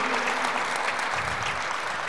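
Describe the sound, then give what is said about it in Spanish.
An audience applauding during a church sermon: dense, steady clapping that holds at an even level for about two seconds, with no voices over it. “¿Alguien puede decir amén todavía? ¿Alguien puede aplaudir todavía o ya no?”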